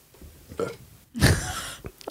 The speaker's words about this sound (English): just burping in this chamber space. Letting all the air out.